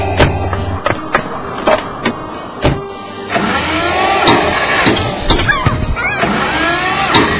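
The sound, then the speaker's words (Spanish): A car engine cranks but fails to start. A few sharp clicks and knocks in the first seconds give way to a sustained, rough, churning turnover that never settles into a running idle. “¡Pinche carro de mierda! ¡Arranca, güey! ¡Arranca!”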